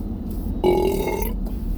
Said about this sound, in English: Ah, vanilla Coke. You feel any burps wilding up?